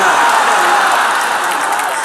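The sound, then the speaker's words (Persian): Applause from an audience at a religious gathering: dense, steady clapping that holds at an even, loud level for the whole stretch, with a faint crowd murmur mixed in. “نه نه نه کف نزن دست بیاد بالا”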